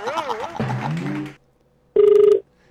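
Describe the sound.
A telephone tone sounds as a call is placed to a live call-in program. Speech comes first, then a short pause, then one steady electronic beep lasting under half a second.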